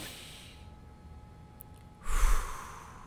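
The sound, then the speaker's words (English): A deep breath drawn in through the nose and let out through the mouth: a faint airy inhale, a quiet held pause, then a louder, forceful exhale that tails off, with no talk. “You got to take in a deep breath through your nose, hold it for a few seconds, and breathe out through your mouth. Let's try it real quick.”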